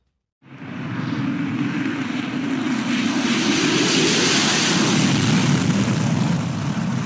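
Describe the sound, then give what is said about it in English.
A United States F-35 stealth fighter jet taking off from Gunsan, South Korea, during a military exercise: a loud, broad jet roar starts abruptly, swells and holds steady for several seconds. “That's the sound of a United States F-35 stealth fighter taking off from Gunsan province in South Korea as part of Operation Vigilant Storm”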